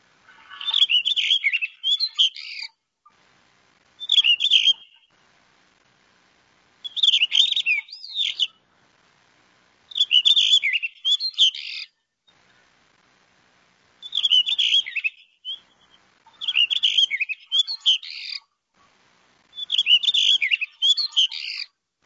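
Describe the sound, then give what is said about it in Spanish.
A male blue rock thrush sings seven short, high, warbling phrases, each a quick burst of bright notes. Clear pauses separate the phrases, and the song stands alone with no other sound. “lo vamos a oír. Roquero solitario, canto del macho.”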